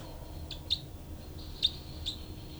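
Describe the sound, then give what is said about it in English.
Birds calling: a few short, high-pitched chirps spaced irregularly over a steady, low background hiss. “Both birds here.”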